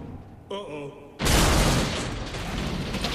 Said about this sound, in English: He grabs a handrail but loses his grip and slides, clutching his head as the carriage falls to the ground.